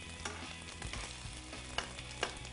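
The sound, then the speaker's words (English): Olive oil sizzling in a frying pan, a faint, steady crackle and hiss with a few sharper pops rising above it near the end. No voices. “so you can tilt your pan and push that oil to where you need it. For instance, this one's a little dry over here, not quite getting the contact of the olive oil.”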